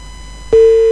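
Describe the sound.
A telephone tone follows a call being cut off, a loud, steady pure beep that starts abruptly halfway through and holds unbroken to the end after a stretch of low hiss.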